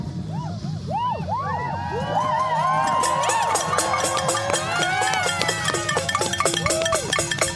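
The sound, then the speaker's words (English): A crowd cheers and shouts at an annual New Year's Eve noise demonstration. Wavering siren-like whistles rise and fall over the steady din, and a rapid clatter builds toward the end. “Gather around. Welcome to the annual New Year's Eve noise demo.”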